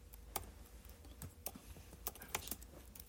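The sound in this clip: Typing on a computer keyboard: a series of faint, irregular key clicks tapping at an uneven pace, quiet throughout with no talk.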